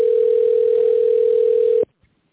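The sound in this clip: A telephone ringing tone plays while a call is being connected: one steady, unbroken tone at a single pitch that lasts almost two seconds, then cuts off abruptly. A faint click follows in the silence.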